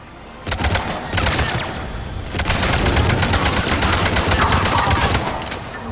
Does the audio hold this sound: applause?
no

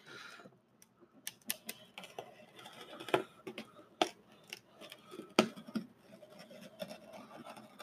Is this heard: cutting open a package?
yes

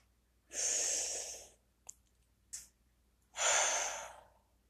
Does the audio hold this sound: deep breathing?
yes

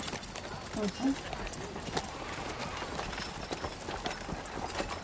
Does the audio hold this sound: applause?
no

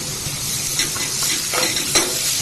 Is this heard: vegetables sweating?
yes

